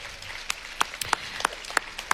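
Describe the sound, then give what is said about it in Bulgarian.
Scattered handclaps at a music awards ceremony: a handful of sharp, irregular claps spread across the moment, thin and sparse rather than a full ovation, with no voices over them. “Аплодисменти!”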